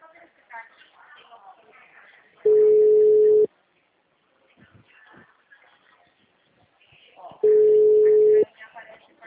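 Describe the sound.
Two long, steady, low telephone ringing tones sound while a call is being placed, each about a second long and spaced roughly five seconds apart, with people talking in the gaps between them.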